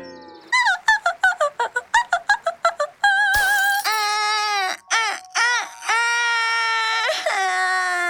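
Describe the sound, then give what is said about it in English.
Someone blubbers and cries like a baby. A rapid run of short, high sobbing bursts leads into longer drawn-out wailing cries that waver in pitch, loud and alone. “Stop your blubbering! You sound like a baby!”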